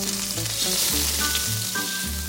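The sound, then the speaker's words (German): An egg fries in a pan as a research robot cooks it, giving a steady crackling sizzle that continues at an even level with no voices. “So kann er beispielsweise ein Ei braten”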